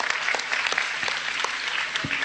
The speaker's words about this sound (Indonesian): tepuk tangan untuk Pak Bupati